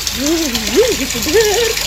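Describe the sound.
Water runs steadily while someone bathes, a continuous bright hiss, with a voice singing a wavering melody over it.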